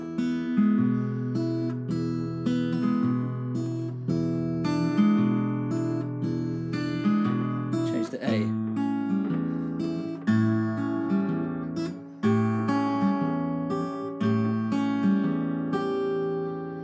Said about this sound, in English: so if we were changing from the E to the E major 7 to the A plus the G, it would sound like this.